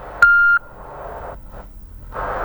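A single steady electronic beep marks a phone call disconnecting. It holds one clear mid-high tone for about a third of a second, then gives way to faint static hiss.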